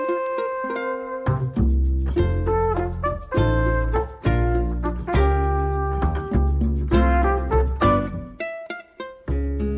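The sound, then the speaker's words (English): Gentle, soothing game music from Animal Crossing New Horizons on Nintendo Switch: a bright plucked melody over steady bass notes and chords, playing in a continuous bouncy rhythm with short pauses between phrases. “That was the sound of Animal Crossing New Horizons, a new Nintendo Switch video game that is absolutely blowing up right now”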